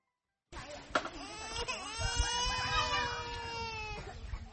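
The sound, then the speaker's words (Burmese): A two-year-old child cries in a tarpaulin hut at a camp. The loud, continuous wail wavers in pitch and starts after a short silence, with low rumbling underneath. “ဒေါ်ဘရိုနီကာတယောက်ငိုနေတဲ့အသက်2နှစ်အရွယ်ကလေးငယ်ကိုနှုတ်တိုက်ဖို့နှုတ်စီဖြော်နေပါတယ”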